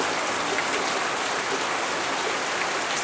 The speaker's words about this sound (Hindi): बरसात है वैसे बरसात